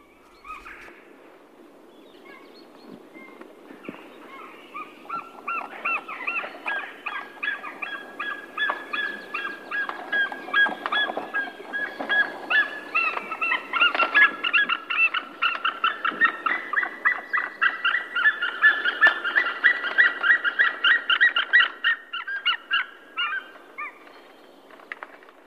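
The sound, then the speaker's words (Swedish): A white-tailed eagle calls on Fjäderholmarna, where such eagles hunt cormorants. It gives a long series of many rapid, high yelping notes that begins faint, grows louder and more insistent, then tapers off near the end. “Här hör vi havsörnen ropa.”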